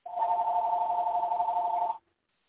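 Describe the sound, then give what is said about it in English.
An electronic phone ringing in a room: a single steady, slightly warbling tone that holds at an even level for about two seconds, then cuts off abruptly into silence. “pardon that phone.”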